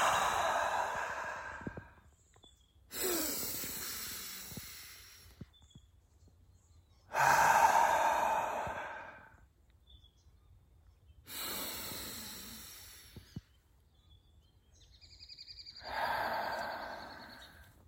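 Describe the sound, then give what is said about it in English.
Slow, deep breathing, in through the nose and out through the mouth: long airy inhales alternate with breathy exhales, each lasting a couple of seconds and separated by near silence, with no talking. “Right now, let's go 3 deep breaths right now. So we're gonna breathe in through our nose and out through our mouth, all right? So you ready? So into your nose, out through your mouth.”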